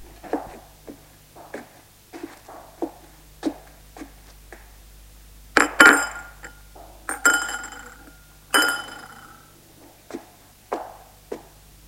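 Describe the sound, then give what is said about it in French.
Dishes and glasses clink as breakfast is prepared in a kitchen: scattered light taps and clinks, with a few louder, ringing glassy clinks in the middle, over a faint low hum. “Adèle va réveiller son fils Anthony, mais avant, elle lui prépare son petit déjeuner dans la cuisine.”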